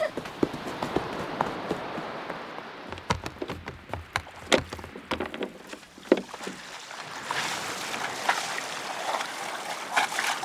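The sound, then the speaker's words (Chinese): Oars splash as a small rowboat is paddled on the Dead Sea, giving many irregular dipping strokes that give way to a steadier wash of water. “哎，我们去划船。”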